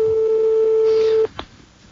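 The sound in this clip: A telephone ring tone sounds on an outgoing call before the answering machine picks up. The steady, level tone holds for over a second, then cuts off and is followed by a short click.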